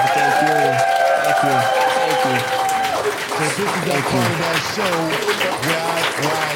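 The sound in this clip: An audience applauds a show guest with a dense, steady burst of clapping and cheering, mixed with talking voices throughout.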